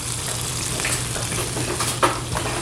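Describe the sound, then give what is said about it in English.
Ham sizzles on an opened grill, a loud, steady, hissing crackle of frying that runs unbroken throughout, with a brief sharp knock near the end. “All right, I smell the ham being cooked now. And that is done. Opening the grill right now.”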